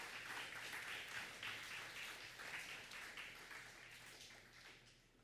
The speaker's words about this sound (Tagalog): Palakpakan po natin ang ating Panginoon.